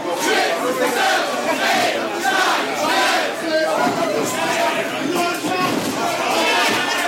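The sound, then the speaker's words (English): A noisy crowd at a live wrestling show roars and shouts without pause, a dense, loud wall of cheering and yelling voices that holds steady from start to finish. “Calm the crowd down here. I don't think it's working.”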